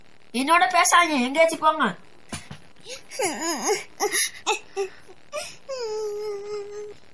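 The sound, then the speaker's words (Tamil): A woman cries in tearful bursts of wailing and whimpering, her voice wavering and breaking between short pauses. “அழுகாங்க ஒண்ணு பேசறதுக்கு விரும்பல, இருட்டு வேற.”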